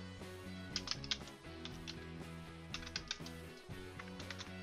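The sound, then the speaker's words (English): Typing on a computer keyboard into a software page field comes in several short clusters of faint key clicks over soft background music. “To do so, we simply type into the custom page field. So in this example, I can type in Arkansas.”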